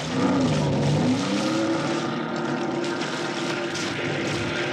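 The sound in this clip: A motorboat with 230 horsepower Johnson outboard engines starts up on a lake, giving a loud, rough engine drone whose pitch wavers early on and then settles into a steady, sustained hum.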